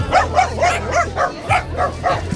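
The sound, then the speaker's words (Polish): Dogs barking and yipping at a dachshund march: a quick, regular run of many short, mid-pitched barks with hardly a pause, loud and continuous. “Bardzo fajnie, bardzo dużo piesków właśnie, przeróżnych umaszczeń.”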